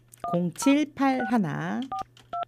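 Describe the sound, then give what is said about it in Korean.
Telephone keypad dialing tones: a few short, steady two-pitch beeps at the start and again near the end, with a person talking through the middle. “이분 한번 전화를 한번 해보도록 하겠습니다.”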